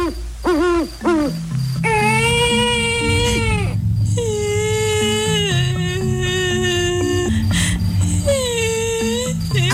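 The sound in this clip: A baby crying in long, sustained wails during an eerie night scene, repeated several times with steady pitch, alongside owl-like hoots and a low droning background.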